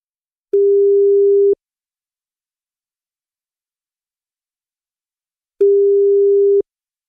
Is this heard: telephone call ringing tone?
yes